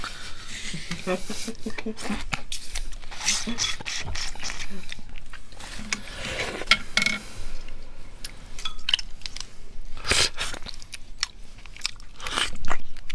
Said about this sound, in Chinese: 然后你现在吃的是虾膏吗？呃，蟹膏。 蟹膏。 可爱的红蟳。